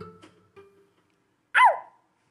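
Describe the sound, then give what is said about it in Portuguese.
A voice imitates a dog's bark with one loud, short yelp that falls in pitch, following a few quiet spoken sounds. “Cachorro.”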